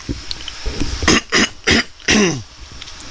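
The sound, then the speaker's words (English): Throat clearing: a few rough, raspy bursts in quick succession, the last one longer and voiced with a falling tone. No speech accompanies it. “let me clear the frog from my throat.”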